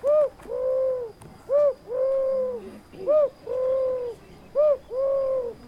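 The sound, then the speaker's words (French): A European turtle dove coos in four repeated pairs, each a short note followed by a longer, steady mid-pitched coo, clear and alone. “Et maintenant, voici les oiseaux. Je suis la tourterelle des bois.”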